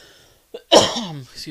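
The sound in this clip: A throat-clearing cough from someone with something caught in the throat: a small catch, then one sharp, moderately loud burst that trails into a short voiced rasp, set against near silence.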